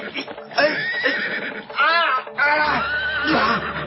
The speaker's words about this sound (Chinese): 嘿，好马儿，让我来驯服你啊。